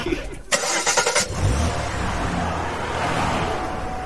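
A hearse's car engine starts with a short, harsh cranking burst, then settles into a steady, low engine rumble.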